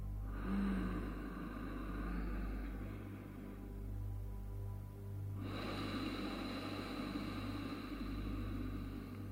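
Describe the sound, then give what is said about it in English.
Slow breathing in through the nose during a breathing exercise, soft and airy, drawn out over several seconds with a faint steady rush of air and no talk. “So let's breathe through the nose now. I'll give you a couple of demonstrations of how it should sound”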